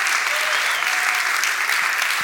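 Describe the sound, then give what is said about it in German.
Audience applause for a worship band's team at a live event, a dense, steady wash of many hands clapping that stays loud and even for the whole stretch. “Also ihr habt eurem Team eben schon einen Applaus gegeben, aber da kann man gar nicht genug applaudieren.”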